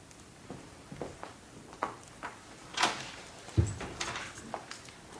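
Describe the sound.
A door closing in a staged drama scene, heard as a single low, muffled thump among a few faint knocks and rustles, with no talk.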